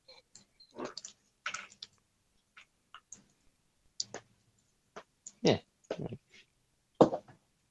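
Someone types answers on a computer keyboard. The keystrokes are quiet and irregular, coming singly or in short bursts with pauses between them over about eight seconds.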